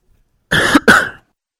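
Two harsh, loud coughs come from someone giving a sermon. The bursts are of similar strength, separated by a very brief gap, with silence before and after.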